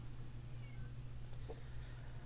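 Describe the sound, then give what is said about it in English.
A cat meows once, a faint, brief call rising out of a steady low hum about midway through, with no talking. “Speaking of cats, my cat is meowing.”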